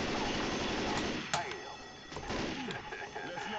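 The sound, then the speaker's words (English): A single sharp gunshot in the video game Left 4 Dead 2 cracks out amid dense game noise, and people talk over it. “Did you shoot me? Why? I thought you were a zombie.”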